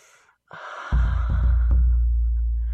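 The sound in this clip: A deep inhale drawn in through the nose, beginning about half a second in and held, with a low steady drone running underneath it to the end.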